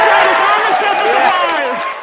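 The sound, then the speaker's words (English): Engineers cheer and shout in mission control at the Jet Propulsion Laboratory in Pasadena, California, after a Mars probe lands. A dense, loud mass of excited voices fills the whole clip and eases slightly at the end. “Engineers at the Jet Propulsion Laboratory in Pasadena, California, erupting in cheers, as you heard, as they received data showing the spacecraft had survived a dangerous descent.”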